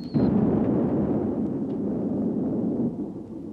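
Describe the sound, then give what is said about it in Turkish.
An unknown spaceship explodes under laser fire, a sharp opening crack giving way to a dense, low, rumbling roar that holds steady for several seconds before easing off, with no voices. “Meçhul gemi parçalandı komutanım.”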